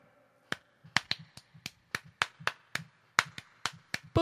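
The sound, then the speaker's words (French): Sharp hand claps fall in a steady, fairly even rhythm: more than a dozen crisp, loud slaps in about four seconds, with no voices. “Pouvez-vous arrêter d'applaudir? Je peux pas.”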